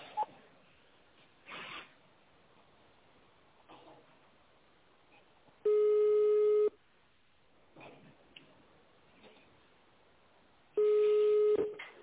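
Telephone tones on an automated company phone line after zero is pressed to reach the operator: two long, steady electronic beeps separated by quiet stretches with a few brief, soft noises.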